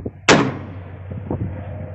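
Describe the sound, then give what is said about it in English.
A single loud crack from a long-range sporting rifle fired near an acidic mine pit in Montana to scare birds away. The sharp report fades quickly, followed by a few faint, low knocks. “Now it's time to use a long-range sporting rifle to scare them away.”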